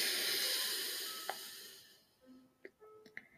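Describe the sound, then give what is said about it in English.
A single exhale through one nostril during a Reiki meditation breathing exercise: a soft, steady breathy hiss that slowly fades away over about two seconds, leaving near silence. “So pinky on the nostril, doesn't matter which one. Breathe in through the open nostril. Close that nostril. Breathe out.”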